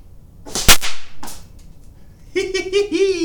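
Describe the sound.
A blowgun dart shot at a wall lands with one sharp, loud crack, followed by a fainter second tap; a voice then speaks.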